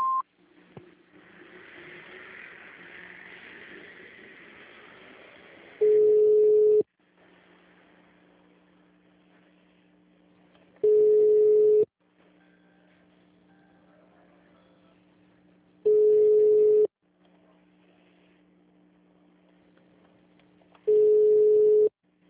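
Telephone menu tones on a digital answering service line, after the recorded message: four loud beeps, each about a second long, repeating roughly every five seconds, with a faint steady hum between them.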